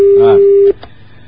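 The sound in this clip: A telephone busy signal sounds after a call drops, heard as one loud, steady beep lasting most of a second, with a voice briefly over it before it cuts off into near silence.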